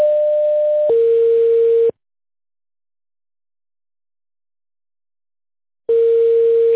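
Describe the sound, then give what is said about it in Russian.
A telephone line tone plays as a call is transferred to an operator: a steady tone steps down in pitch after about a second, cuts out for roughly four seconds, then the lower tone resumes. “Ваш звонок переводится на оператора.”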